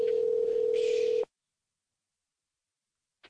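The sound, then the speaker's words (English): A telephone dial tone sounds after the phone is hung up. A steady, single-pitched hum lasts just over a second, then cuts out to silence, with a faint brief click at the very end. “I'm just gonna hang up the phone like a bitch.”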